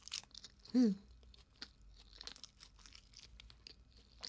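Chewing on a late-night snack: many faint, irregular crunches and small mouth clicks, with one brief, louder tonal squeak near the start.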